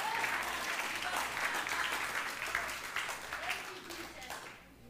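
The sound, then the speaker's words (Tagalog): A church audience applauds during a worship service, a fairly soft, continuous patter of many hands clapping, with voices underneath and a gradual fade toward the end. “Yung kabutihan niya, palakpakan mo siya.”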